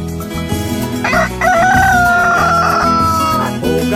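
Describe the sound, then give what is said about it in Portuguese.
A rooster crows in one long, sustained call over loud music. “galo cantou é de manhã. O galo cantou”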